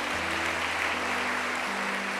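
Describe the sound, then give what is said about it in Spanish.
Applause from an audience during a church sermon: a dense, steady wash of clapping that holds at an even loudness for the whole stretch, with a low hum underneath and no voices. “Dele un aplauso a la reina de los cielos.”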